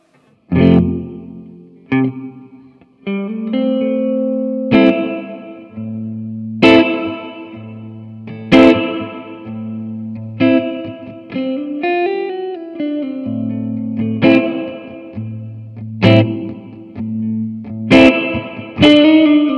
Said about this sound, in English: It's going to give us a ah-ooh kind of reverb. So you'll hear it.